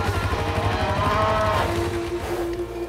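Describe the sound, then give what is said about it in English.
A cattle herd blocking the road lows in drawn-out, mid-pitched moos over a steady low engine rumble from an idling quad bike. “A cattle herd is blocking the road.”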